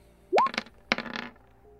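Dice rattle during a tabletop game reroll, a couple of short, quiet bursts of small hard clattering knocks separated by a brief pause.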